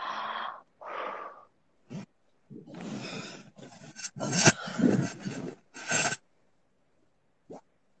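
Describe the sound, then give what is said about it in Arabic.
Breathing during a breathing exercise: many audible, raspy breaths in and out, some drawn out and some quick, separated by quiet gaps, with no talk. “تنفسي بعد مرة”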